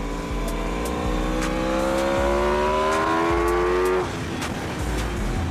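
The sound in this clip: Racing motorcycle engine revs hard, its pitch climbing steadily for about four seconds before an abrupt drop, then it continues to roar at a lower pitch, loud and alone without talk.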